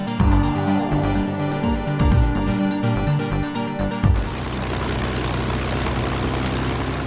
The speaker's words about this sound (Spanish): Jaden y Lorraine Winterson conducían cerca de Ashford, en el Reino Unido, cuando observaron el vuelo de un caza Spitfire de la Segunda Guerra Mundial sobre ellos.